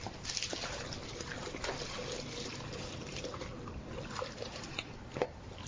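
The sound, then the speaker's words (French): A porridge mixture is poured into boiling water, giving a continuous soft watery trickle and hiss with little variation in loudness. “Donc, vous pouvez maintenant verser. Je verse ça dans l'eau qui bout.”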